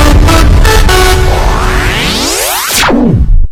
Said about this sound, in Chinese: 你以为你听见的只是城市车水马龙，